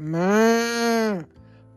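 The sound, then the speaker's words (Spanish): A cow mooing on a farm: one long, loud, droning moo that holds steady, then drops and cuts off sharply, leaving a faint low hum. “Hay vacas,”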